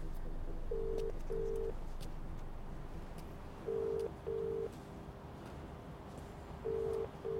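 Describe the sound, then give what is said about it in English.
Ringback tone of an outgoing phone call heard from a phone held to the ear: short, low, steady beeps repeating in pairs, three pairs with the last cut short, over faint background noise. “Call Sophia. He gets out of the car and walks away with the phone to his ear.”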